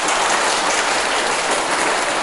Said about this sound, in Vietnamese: Đó, cho một tràng pháo tay.